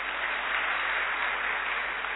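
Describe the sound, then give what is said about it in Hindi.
Children clap loudly for themselves at a gathering. The applause is a dense, even patter that holds steady from start to end, with no voices. “ये देखो भाई, अपने लिए खुद जोरदार ताली बजाइए।”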